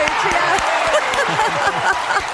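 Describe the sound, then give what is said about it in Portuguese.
An audience at a music show applauds a guest singer with dense, continuous clapping, and cheering voices rise through it. “Palmas pra ele!”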